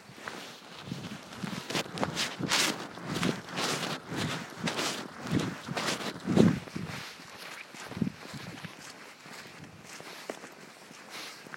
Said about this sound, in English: I'll give you a peaceful walk for a few minutes.